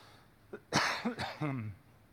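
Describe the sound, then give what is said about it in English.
Coughing and throat clearing from someone irritated by smoke: a few short, rough bursts, the last one drawn out and hoarse with a voiced tone. No talk is heard. “Sorry, that smoke has me a little bit coughing a little bit.”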